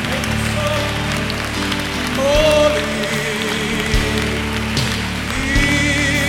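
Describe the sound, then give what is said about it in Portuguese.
Congregational applause for the Lamb during a worship song: a steady, crackling wash of clapping blended with sustained music throughout. “Aplaudam o Cordeiro, o que vem triunfando.”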